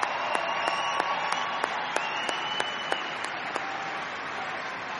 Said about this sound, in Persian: از تمام این هنرمندان عزیزی که امشب با ما بودن دستشون درد نکنه، به خصوص بابک عزیز که خیلی زحمت کشیده. واقعا یه دست برای بابک.